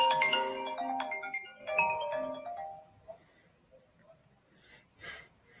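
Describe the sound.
A phone ringtone plays a short melodic phrase twice, bright tonal notes in quick succession, then stops, leaving only faint background noise.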